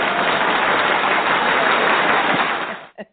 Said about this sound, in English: I'm going to give y'all a round of applause, too.